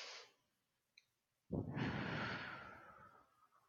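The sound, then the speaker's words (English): A person breathes deeply, one fading breath and then a long, airy breath that swells and tails off over about two seconds, soft and alone. “I'm going to ask you to breathe.”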